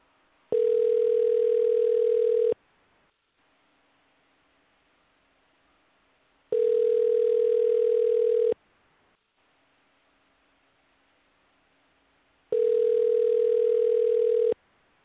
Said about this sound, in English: And we're dialing.